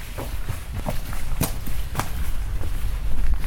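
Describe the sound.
Footsteps walking into the Kreuzigungshof courtyard, at the site of a former hospital beside the Heilige-Geist-Kirche, sound as a few irregular scuffs and taps over a steady outdoor background rumble.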